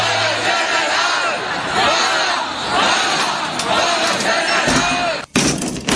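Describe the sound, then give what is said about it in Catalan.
People shouting in the street during a general strike: a dense, continuous roar of many raised voices and chants that briefly drops away near the end before surging back. “Pero hay gente en la calle y grita.”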